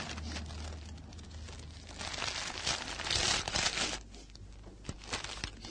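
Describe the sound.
Soft rustling and crinkling as a bag is opened and a paper envelope is pulled out, a quiet continuous handling noise with a few sharper crackles in the middle.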